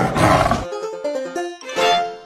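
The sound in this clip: A tiger roar, a loud, rough, growling burst at the start with a second roar near the end, and a short tonal musical jingle sounding between them.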